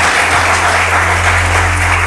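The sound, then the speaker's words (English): A church audience claps together, a loud, dense, continuous roll of applause with an even intensity from start to finish and a low hum underneath. “Yes, let's clap for Jesus.”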